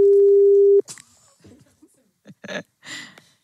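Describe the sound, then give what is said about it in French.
A telephone ringback tone as a call is placed live on air to a home in Liège province: a single loud, steady low-pitched tone lasting under a second, then cut off and followed by brief, faint scattered sounds. “Et donc on appelle du côté de Bénezet, en province de Liège.”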